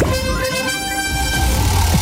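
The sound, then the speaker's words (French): A trumpet sounds as a radio contest alert, a loud, bright brassy tone held steady through the whole clip. “On ne peut pas la rater. On ne peut pas rater la trompette.”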